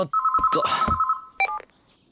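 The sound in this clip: A telephone rings with a steady, bright electronic tone for about a second, with a burst of noisy clatter over the middle of it. A brief two-tone chirp follows, then the sound fades to quiet.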